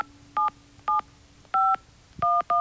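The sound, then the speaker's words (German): Telephone dialing tones of a landline number: five short, clean touch-tone beeps with uneven gaps, alone over faint background hiss. “Wer diese siebenstellige Festnetznummer wählt”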